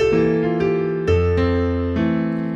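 Piano played with the left hand on the downbeats: a few sustained chords, each struck together with a low bass note in a plodding, even rhythm, clear and without talk.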